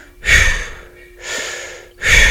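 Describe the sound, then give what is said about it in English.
Breath of fire breathing exercise: three forceful, rushing breaths in an even rhythm, each loud burst separated by a short pause. “this breath is more of like a breath of fire type of breath work, and the biggest piece of this is that you focus on the rhythm.”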